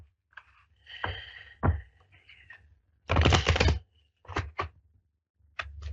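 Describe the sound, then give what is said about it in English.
Shuffling noises come in short rustling, tapping bursts, with a longer, dense riffling burst in the middle and quiet gaps between the bursts. “one more shuffle here.”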